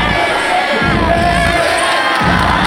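Football fans cheer Belgium's World Cup win over the USA in a dense, loud, unbroken roar of crowd noise that lasts a few seconds.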